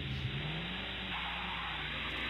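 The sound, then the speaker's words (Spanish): A car engine revs hard and steadily throughout, with a loud, continuous mid-pitched roar and no pauses. “Si me dejas ahora, no, arránquese el carro.”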